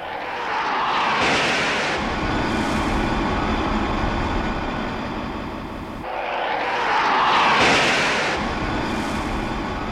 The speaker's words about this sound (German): Soeben hat wieder eine Maschine das erste der 6 über Deck gespannten Seile erfasst.